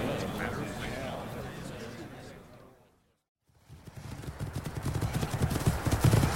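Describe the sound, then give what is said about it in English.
Hooves of riding mounts as riders leave a camp: a dense wash of sound fades into a brief silence, then rhythmic clip-clop steps return, growing steadily louder and quicker toward the end. “As they rode away from the camp on their Razaline”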